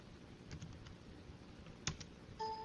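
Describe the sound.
Keys on a computer keyboard clicking as someone types a word: a few faint, scattered taps, with a brief steady tone near the end.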